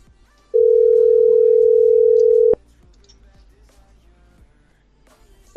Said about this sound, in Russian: Так, гудки идут.